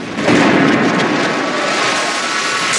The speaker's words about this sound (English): A moment later, and he explodes again.